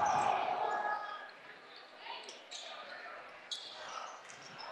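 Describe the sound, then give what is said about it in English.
Basketball dribbled on a gym court during a high school game, the ball bouncing a few times as a player drives into the corner toward the baseline, under steady crowd murmur and a voice talking. “Near the left side, goes into the corner and dribbling to the baseline, losing the dribble”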